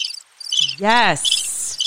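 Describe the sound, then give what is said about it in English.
Crickets chirping in rapid, high, pulsing trills that continue throughout, with a short spoken word partway through. “Yes, crickets. You hear that?”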